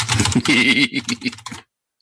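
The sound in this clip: Rapid, loud clattering of typing on a computer keyboard, many keystrokes in a dense run that stops abruptly after about a second and a half, with a voice-like tone overlapping the keystrokes.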